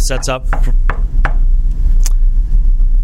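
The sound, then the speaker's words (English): Knuckles knocking on wood, a few short, sharp raps in the first half, with people talking over and around them. “You were knocking on wood. Yeah, I don't like the rain delays. So I want to knock on wood and make sure there wouldn't be a rain delay.”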